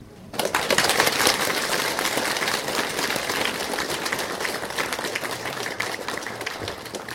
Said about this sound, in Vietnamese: Vỗ tay, tiếp tục vỗ tay.